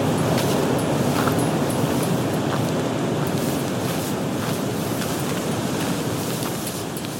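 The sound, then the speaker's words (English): Wind rushes as a steady, loud, continuous hiss that holds an even level throughout, with only slight faint high ticks over it. “Ah, shit. Forgot the wind.”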